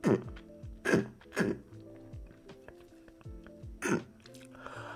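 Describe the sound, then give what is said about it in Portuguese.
Someone clearing their throat: several rough, guttural bursts with grunting voiced tails, separated by short pauses. “É, peraí, eu tenho, eu tenho que passar a garganta, desculpem.”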